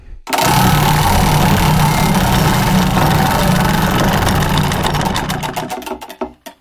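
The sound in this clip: A prize wheel spins in a radio name-drawing game, making a loud, dense, continuous clatter of ticks. Near the end the ticks slow into separate clicks and then stop.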